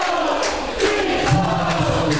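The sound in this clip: Santo Tirso's home football crowd in the stands during a Tirsense versus Mafra match, a loud continuous roar of many voices with sustained chant-like tones rising in the second half.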